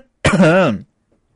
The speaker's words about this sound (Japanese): ちょっと、むせました。リアルにむせたって、ごめんなさい。